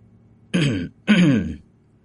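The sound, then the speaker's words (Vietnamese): A person gives two dry throat-clearing coughs in quick succession. Each is short and gruff, with no talk around them. “Cổ Lăng ho khan một tiếng, vẻ mặt có phần lúng túng.”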